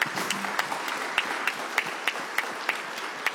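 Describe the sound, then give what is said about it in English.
Applause from a church audience: steady clapping with a few sharper claps standing out at a fairly regular pace, moderately loud, with no voices. “Y'all give Nathan a hand.”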